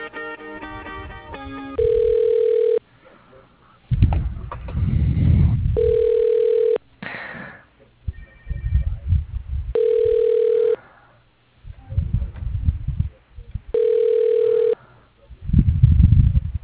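A telephone ringback tone plays while a call is transferred to voicemail. Four steady, mid-pitched rings, each about a second long, repeat roughly every four seconds over a narrow phone line, with muffled sounds in the gaps.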